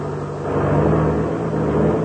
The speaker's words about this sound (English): See, that is a monoplane over there. Yeah, I can see now. Well, we'll turn and taxi over beside it.